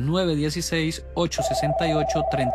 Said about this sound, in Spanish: Tenemos una llamada.